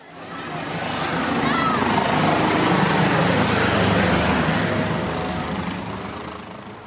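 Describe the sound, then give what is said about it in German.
An air rescue helicopter lands at its rescue base, a broad rotor roar and noisy wash that swell to a loud peak midway and then ease off gradually. “So, jetzt ist der Christoph 22 sicher gelandet.”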